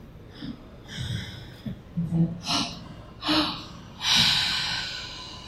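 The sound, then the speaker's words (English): Several breathy exhales pushed out through an open mouth during a breathwork exercise, each a soft airy rush that swells and fades, the last longest and strongest. “Open that mouth, give the breath, the airflow. You know, try it, like, I get it. We breathe like this sometimes.”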